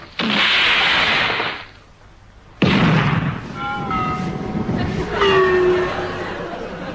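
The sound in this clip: Depth charges fired from a ship burst out in two loud blasts, each followed by a long roaring rumble that lingers and slowly fades.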